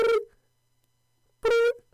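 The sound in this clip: Telephone ringing: two short, steady electronic ring bursts about a second apart, with silence between them.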